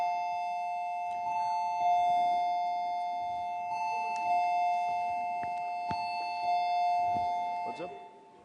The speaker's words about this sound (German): Ich dachte, die klingeln. Ich dachte, die haben geklingelt. Ich wollte sagen, komm rein.